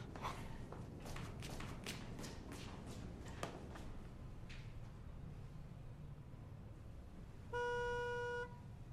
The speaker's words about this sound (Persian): هی داره بوق میزنه.